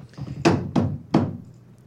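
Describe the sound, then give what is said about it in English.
Three hollow wooden thuds of a broom banged like a gavel at a raffle, struck in a quick, slightly uneven sequence, loud and alone without talk. “Do we need a gavel hit from the broom?”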